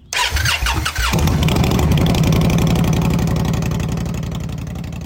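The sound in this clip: An Indian Scout motorcycle engine cranks over for about a second, then catches and settles into a loud, steady, throbbing idle that eases slightly toward the end.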